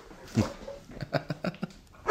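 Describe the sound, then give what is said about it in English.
Two house dogs bark at people on the road, one setting off the other. They give a quick run of short, sharp barks and yips, moderately loud and uneven in spacing. “So Joy barks when there are people on the road and then Happy barks at Joy.”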